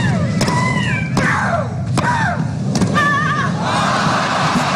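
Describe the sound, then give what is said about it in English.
A female player grunts loudly while hitting shots: several sharp hits, each followed by a high, falling shriek, over a steady crowd murmur. “The noise was compared to the sound of a chainsaw, pneumatic drill, and yeah, she's like, I won the crown for it, you know? She was famous for grunting. If you want to have a listen, here's some of, you know, her best grunts.”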